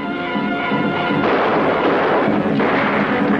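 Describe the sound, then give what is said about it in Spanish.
Rifle gunfire from many attackers during a stagecoach chase in a 1939 western, heard as a dense, sustained crackling roar with no separate shots standing out, steady and loud throughout. “Muchos de los indios disparan con rifle.”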